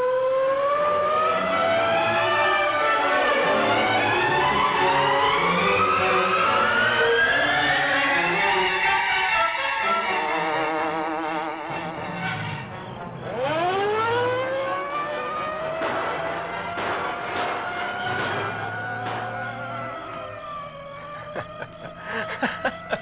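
A police car siren wails during a chase, its loud tone sweeping up and down in repeated arcs and rising again after a brief dip midway, with a rumbling car engine underneath.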